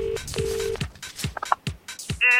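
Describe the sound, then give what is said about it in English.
Telephone tones: a couple of sustained beeps, then a brief run of dialing tones, ending in a bright, buzzing ring tone, with other scattered sounds in between. “Pick up the phone.”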